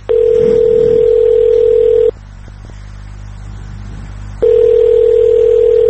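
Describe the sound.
Ringback tone on an unanswered phone call to an agency's press office: a steady, mid-pitched tone sounds for about two seconds, stops for a pause, then starts again.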